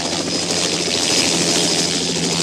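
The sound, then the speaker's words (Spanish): A helicopter lands and raises dust, giving a steady, loud whirring drone with a thin high whine running through it and no clear change in level. “El helicóptero levanta polvo.”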